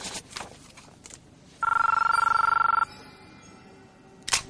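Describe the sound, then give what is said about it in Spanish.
A mobile phone rings once with a loud, steady electronic warbling tone lasting just over a second. Soft knocks and rustles come before it, and a sharp click follows. “Saca un teléfono móvil.”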